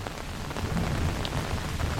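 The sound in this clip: Steady rain falling amid drifting fog, an even, dense hiss of drops with a low rumbling undertone, unchanging throughout and free of voices.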